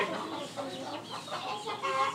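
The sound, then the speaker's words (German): Clucking from a group of young, nearly grown chickens, a quiet series of short, irregular clucks and murmurs with no one talking. “Und die ganzen kleinen Hühner, die hier jetzt rumlaufen, mittlerweile auch gar nicht mehr so klein sind”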